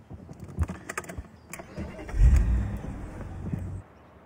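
A car engine starts with a few small clicks and rattles, then a low rumble swells up loudly, holds for about a second and a half, and fades away abruptly.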